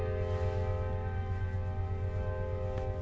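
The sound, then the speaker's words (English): A train horn blows a steady chord of several layered tones. It is fairly faint and holds unbroken across the whole stretch, with a low rumble beneath it. “every time the train honks, I'm just going to stop talking, because... because fuck that guy.”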